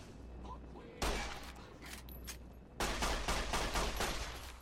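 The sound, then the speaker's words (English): Faint gunfire in a first-person shooter video game, with two loud bursts of shots and the noise trailing off after each, the second burst running on longer. “Just ran up. He wasn't hurting me too bad. I just ran up and shot him in the head.”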